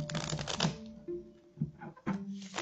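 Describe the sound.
Tarot cards from a Gilded Royal deck being shuffled and laid out: several soft, papery bursts of riffling and slapping, separated by brief quiet gaps.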